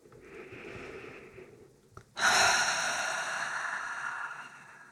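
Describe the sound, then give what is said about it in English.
A deep breath drawn softly in through the nose during a guided meditation, followed after a brief pause by a much louder, breathy exhale through the mouth that slowly tapers off. “deep breath with your nose and exhale with your mouth. And do it one more time, and you can even make any sound that feels authentic to you when you're exhaling.”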